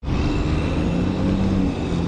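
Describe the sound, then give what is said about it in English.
Traffic noise at the Franklin Arterial and Marginal Way junction in Portland, Maine, a busy twenty-lane intersection at the edge of downtown: a steady, dense rumble of engines with low droning hums, holding an even loudness throughout and without voices. “The junction of Franklin Arterial and Marginal Way is Portland's busiest intersection. 20 lanes of traffic converge on the edge of the downtown district of Maine's largest city.”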